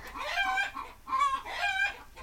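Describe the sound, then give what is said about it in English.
Chickens clucking and squawking in a few drawn-out, nasal, strongly tonal calls with brief pauses between them, loud and clear with no talking over them. “God, the fucking chickens.”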